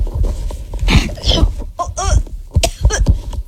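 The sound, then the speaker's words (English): A few harsh coughing bursts mixed with a voice, loud and uneven. “You're coughing already”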